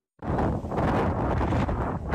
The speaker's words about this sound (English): Crete and a lethal mix. Fire and storm force winds. This the view from a British camper van fleeing.